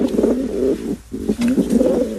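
Pigeons coo in the street in a run of low, throaty, rolling calls that repeat in a steady pattern, with a brief pause midway. The cooing is fairly loud and heard without talk.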